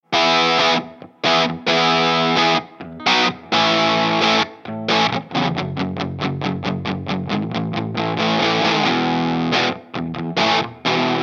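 Distorted electric guitar from an Eastwood Airline H44 Deluxe on its bridge mini humbucker, playing loud chopped chords and then a fast run of repeated strums, thick and gritty, with no other sound.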